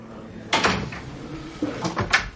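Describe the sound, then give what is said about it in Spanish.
A prison door opened by a guard, heard as a sharp clunk followed by a second set of heavier clunks and a rattle a moment later, with quiet in between. “El guardia abre. Luciani sale. Todo bien, tranquilo. Vettori se va por la otra puerta.”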